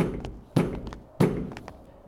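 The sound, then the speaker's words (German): Knocking on a large gate: two heavy, booming thuds roughly half a second apart, each ringing briefly before fading, with a few faint taps around them. “dann die Treppe hinauf und Herr Wundersam klopfte an das große Tor.”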